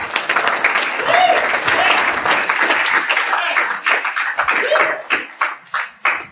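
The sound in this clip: An audience at a Fairfax Speaker Group meeting in Wilmington, Delaware, applauds to welcome a speaker. The clapping is loud and sustained, then thins into a few separate, spaced claps at the end.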